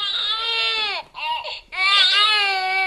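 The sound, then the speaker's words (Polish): An infant simulator doll cries like a newborn in drug withdrawal: loud, high, strained wails in a few bursts separated by brief breaks, with the pitch dropping at the end of the first cry. “dzieciątko, no poza tym, że płacze, to również jego ciało całe drży, jakby pokazując no głód właściwie narkotykowy”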